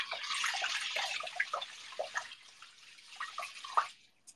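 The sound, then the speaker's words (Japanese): Rice being washed in water makes soft, irregular sloshing and splashing with scattered drips. The sound is faint throughout and eases off toward the end. “米を洗っております。”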